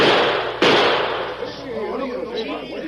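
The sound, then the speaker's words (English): A single abrupt gunshot crack as guns fire through a deck of playing cards, loud and sharp, followed by a voice. “One of the stranger's guns cut that deck of cards. And the other drilled one of the cards plumb center while it was in the air.”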